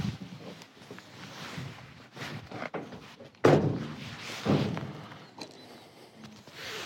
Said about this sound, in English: Shall I lock the van up? Probably best. You should lock it, probably, yeah.